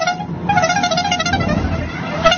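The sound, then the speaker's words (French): Small novelty horn from a vehicle in the Tour de France publicity caravan, honking loudly in bright, buzzy tones that shift between a few notes in a short sustained blast. “ce petit klaxon qu'on adore”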